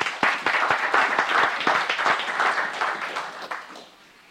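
Applause from an audience in a legislative chamber welcomes guests, a former geology professor and her friend. Dense, steady clapping runs for about three and a half seconds, then thins and fades away.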